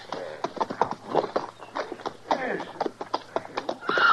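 Hoofbeats of horses being ridden off: many quick clip-clop strikes in an uneven, overlapping rhythm that continue throughout at a moderate level.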